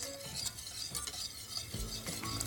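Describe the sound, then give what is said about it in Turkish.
Whisking a butter sauce thickened with starch in a pot: quiet, steady swishing and scraping strokes with a faint sizzling texture throughout. “Şimdi sen şöyle bir çırparsan. Tamam, siz dökerken ben de çırpayım.”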